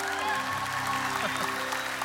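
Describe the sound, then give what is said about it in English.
A church audience applauds for Jesus at the prompting of a worship leader. Steady, dense clapping fills the short stretch at a fairly even level, with no distinct voices. “Celebration Church, let's put our hands together for Jesus.”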